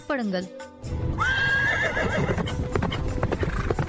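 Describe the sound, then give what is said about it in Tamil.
Horse hooves clip-clop steadily while a horse lets out a loud whinny that rises and wavers in pitch, with a voice also present. “இதென்ன குதிரையின் குளம்பொலி கேட்கிறதே”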